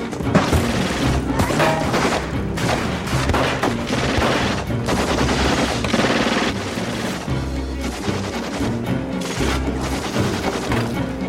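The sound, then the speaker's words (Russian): Automatic rifle fire in a film shootout as a gunman opens fire on police operatives: dense, loud, rapid bursts of shots with crashing impacts, continuous throughout. “вновь открывает огонь по оперативникам из автомата.”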